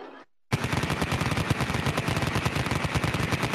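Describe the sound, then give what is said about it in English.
Gunfire sound effect: after a brief moment of quiet, a loud, dense stream of rapid machine-gun shots bursts in and continues without pause to the end. “Rapid fire. Let's bring up the guns.”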